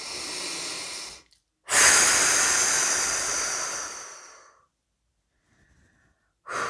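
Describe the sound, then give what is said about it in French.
Slow, deep breathing during a relaxation exercise: long, airy breaths, the longest stretching about three seconds, separated by stretches of silence, with no talking. “Encore une fois, et si nous le souhaitons, nous pouvons accompagner notre souffle du mouvement de libération des mains.”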